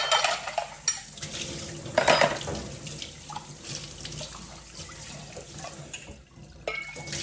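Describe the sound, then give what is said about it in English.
Glasses washed under a running tap at a sink. Steady hissing water runs throughout, with scattered clinks and knocks of glass against the sink and dishes, and no talking. “It is also a good method to wash glasses.”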